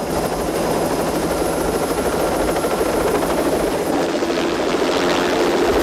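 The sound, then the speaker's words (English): A helicopter flies overhead above the docks, its rotor making a steady, loud thrumming drone that holds constant for the whole clip. “A helicopter flies overhead, throwing a spotlight over the devastation of the docks.”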